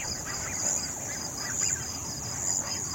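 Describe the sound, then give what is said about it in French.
Crickets and grasshoppers chirping at night beside a pond, a steady, high-pitched trilling drone with a gentle pulsing rhythm over a soft background hiss. “Oui, ça c'est typiquement le son qu'on peut entendre de nuit. Bon, tout ce qui est grillons, criquets, sauterelles, bon là on les entend.”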